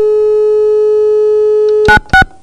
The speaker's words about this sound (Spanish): son las 12:10, permítame, vamos a hacer la marcación.